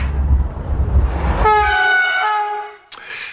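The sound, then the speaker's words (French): A train whistle blows once in a long, steady, loud harmonic tone after a low rumble from the moving train, then cuts off abruptly. “on a entendu le sifflement du train”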